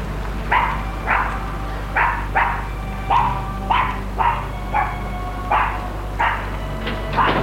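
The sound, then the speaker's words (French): Stray dogs bark in a city, giving many short, sharp barks at a fairly even, steady pace over a low background hum, with no voices. “Des chiens errants.”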